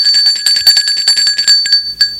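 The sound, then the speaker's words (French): A doorbell rings at a home's front door in the afternoon. The metallic ringing is loud and continuous for about two seconds, with rapid repeated strikes, and no voices. “Un après-midi, l'on sonne chez Nicolas.”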